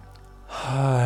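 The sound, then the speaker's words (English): A deep breath drawn in during a guided relaxation, a soft airy inhale that swells steadily louder over about half a second and holds at its peak. “So now, taking in a breath all the way in,”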